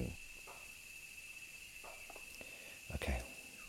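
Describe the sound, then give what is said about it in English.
Cicadas drone through the summer season in a continuous high, steady, buzzing hiss that holds at a fairly faint level throughout, with a brief low thump near the end. “we're in the middle of the cicada season. So I'm sorry about this noise. It's not your computer, it's not my computer, but the cicadas are like very,”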